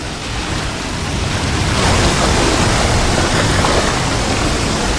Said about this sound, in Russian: Одна из досок выступает из стены, это нижняя часть желоба. Он опускается над ванной. Дернешь за эту веревку, пойдет вода. Попробуй. Схватившись за веревку, Тихиро поскальзывается, повисает на ней.